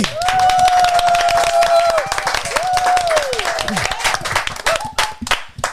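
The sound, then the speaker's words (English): A crowded live audience at Paco's Place gives a big round of applause, with whoops and cheers over dense clapping that thins into scattered claps near the end. “How about a big round of applause? Pearse Abbey!”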